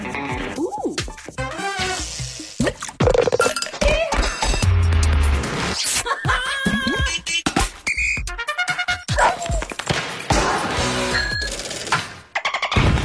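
An ice-cold 20-ounce Pepsi bottle is opened and poured in an advert, with bright glassy clinks and crackles running busily and loudly throughout.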